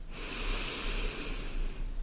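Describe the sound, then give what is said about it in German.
Deep belly breath drawn slowly in during a guided breathing exercise: one long, steady, airy rush of breath that holds for about two seconds, with no talking. “Dass du tief einatmest in den Bauch”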